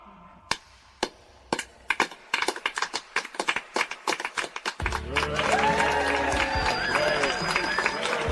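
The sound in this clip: An audience at a match at Whitecoats applauds and cheers. Scattered sharp claps build into a denser patter, then a sustained wash of crowd noise with raised, whooping voices takes over and continues to the end.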